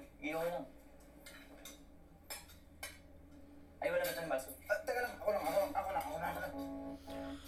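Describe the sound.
Clinks and scrapes of a serving spoon against dishes as food is served, a few light metallic knocks scattered under steady conversation.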